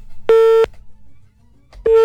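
A telephone line signal while a caller is dialed: two steady, pitched electronic beeps, the first longer than the second, separated by a pause with a faint low hum.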